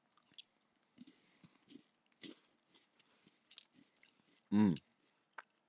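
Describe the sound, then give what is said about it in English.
Chewing an orange-flavoured candy: many soft, faint mouth clicks and moist crunches at an irregular pace, with one louder, fuller crunch near the end. “Is this orange? It tastes like orange. It tastes like gross orange.”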